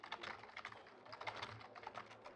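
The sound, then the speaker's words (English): Keys clatter on a computer keyboard in a quick, steady run of many faint, crisp keystrokes, with no voices. “Hold on. Just let me type that one out.”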